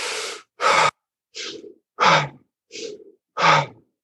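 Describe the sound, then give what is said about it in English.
Deep, rapid breathing from a breathwork exercise: six forceful breaths in three quick in-out pairs, with short silent gaps. Each breath is loud and airy, pulled in and pushed out at a brisk, even pace. “we breathe in, imagining the air coming in to the corners of our mouth, over the bottom molars, into the back of the throat, expanding the chest and heart area. Big breaths at a pretty good pace.”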